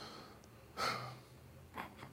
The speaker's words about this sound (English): I'm just taking a deep breath before I read this.